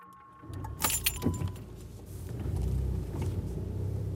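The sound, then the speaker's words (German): A police car drives toward the Kastanies border crossing on the Greek-Turkish border along the Evros river; keys jangle briefly early on while a low engine rumble builds and grows steadily louder. “Polizeikommandant Tonakis fährt in Richtung Grenzübergang.”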